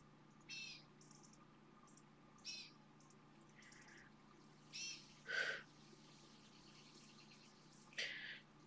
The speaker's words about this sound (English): I don't know if you guys can hear that bird that was just a hawk. Was it a hawk?